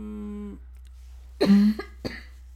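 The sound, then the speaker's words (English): Someone coughs: a harsh, loud burst, then a shorter second cough a moment later, following a brief trailing bit of voice. “tough cough. Sorry.”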